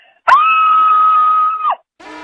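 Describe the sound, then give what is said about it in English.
A woman's long, high scream holds a steady pitch for over a second after a sharp onset, then breaks off with a quick downward slide. A voice begins speaking just after. “here is my cabin fever scream”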